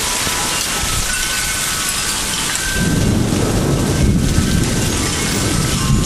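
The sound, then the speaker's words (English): Heavy rain pours steadily outdoors during a thunderstorm, a dense hiss that continues throughout, with a deep rumble of thunder swelling in about halfway through and rolling on beneath the downpour to the end. “I'm getting rain man. Oh. Wow.”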